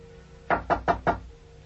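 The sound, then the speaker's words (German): Knocking on a door: four quick, evenly spaced knocks at moderate loudness over a faint steady hum, with no voices. “Es hat geklopft.”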